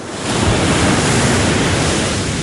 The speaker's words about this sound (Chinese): 甘英终于走到了条支，站在了浩浩荡荡、一眼望不到头的大海边上。这片海，史书上管它叫西海。